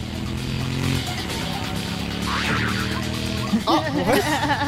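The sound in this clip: A motorcycle engine roars in the cage-of-death execution scene of the Danganronpa video game, holding a loud, steady growl with rattling overtones. Voices break in near the end.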